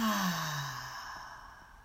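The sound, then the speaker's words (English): A deep breath sighed out during a guided breathing exercise, one soft, continuous exhale that starts fairly strong with a low voiced tone and gradually fades away. “And our final breath in. Breathe in. And out.”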